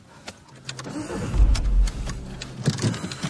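A driving school car sets off, its low engine rumble swelling to a loud surge midway through, then settling into a steadier drone. No one speaks.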